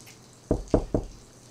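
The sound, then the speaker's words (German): Three firm knocks on a smaller, locked rear door, evenly spaced, dull and thudding, alone over faint background hiss. “Und auch eine ähnliche Tür, etwas kleiner, aber auch die ist verschlossen. Dann klopfe ich nochmal.”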